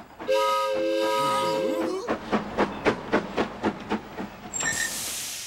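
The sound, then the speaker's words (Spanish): An excursion ride train sounds a long, harmonic whistle, then a rhythmic run of many steam chuffs follows, ending with a hiss. “¡Miren! ¡Un tren de paseo! ¡Vamos a dar una vuelta!”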